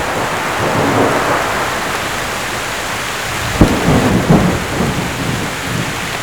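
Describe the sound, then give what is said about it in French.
Steady rain from an evening thunderstorm with lightning pours throughout, and a couple of sharp thunder cracks with brief rumbles break through near the middle. “Le ciel qui s'est assombri à 19h30 est totalement illuminé par les éclairs.”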